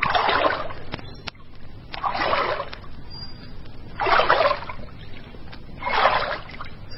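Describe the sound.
Oars row a boat in a steady rhythm: four splashing, swishing strokes come about two seconds apart, each a soft rush of water, with a faint click between the first two strokes.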